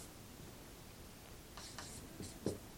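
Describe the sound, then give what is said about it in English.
Handwriting scratches faintly in a few short pen strokes as a conditional marker and verb are written out. “And I'm just writing out the conditional marker and the verb and the subjunctive.”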